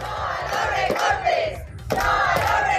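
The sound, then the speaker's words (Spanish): A protest crowd chants in unison outside the Carucedo rural grouped school, opposing the removal of a support and music teacher. Two loud, rhythmic chanted phrases are separated by a brief pause. “Concentración de protesta también ante el Colegio Rural Agrupado de Carucedo.”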